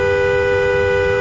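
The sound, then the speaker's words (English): A car horn sounding from inside the car, a single sustained, loud, steady blast with a bright tone that holds unbroken for the whole moment. “this is the sound of a car horn from inside a car.”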